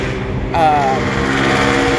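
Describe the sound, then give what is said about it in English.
Low engine rumble of a car passing by outside a patio, a steady mechanical drone beneath a person talking. “So sorry about the noise in the background. I'm actually sitting out on my patio and that was a car passing by.”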